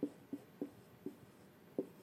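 A pen writing on paper, faint and scratchy. Five short strokes come at uneven intervals, with a longer pause before the last one.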